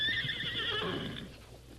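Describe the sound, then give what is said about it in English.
Horses neigh as they are whipped up and driven hard toward quicksand, with a long, wavering, high whinny over hoofbeats that trails off into a softer rumble of hooves. “Whip up them horses. Run them into the sink.”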